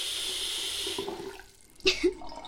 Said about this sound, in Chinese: 装满水，把水开满。